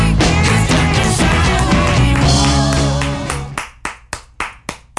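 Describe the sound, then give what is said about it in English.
A woman claps her hands for herself: a handful of slow, separate, crisp claps ring out alone after loud music cuts off. “As she applauds herself”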